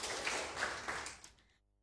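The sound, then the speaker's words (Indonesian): Applause rewards quiz team A for a correct answer, a fairly faint, steady patter of clapping with a few slightly stronger bursts that thins and fades out near the end. “Jawaban benar diberi nilai 100. Iya, tepuk tangan untuk regu A.”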